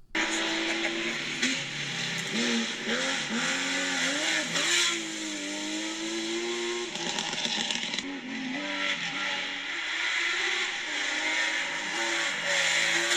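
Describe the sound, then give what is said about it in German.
A car engine revving hard with audible intake noise, its tone climbing and dropping through several revs, each winding high, continuous and fairly steady in loudness with no voices. “Das kam ja von vorne auf dich zu, ne? Ja. Da war Ansauggeräusch mit bei Alef. Der dreht auch richtig hoch.”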